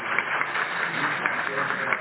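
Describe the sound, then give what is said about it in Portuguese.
Applause from a council welcoming newly sworn-in council members: a steady, dense wash of clapping that holds at an even level throughout. “Então, eu quero pedir ao conselho que aplaudam e acolhendo os novos conselheiros agora empossados.”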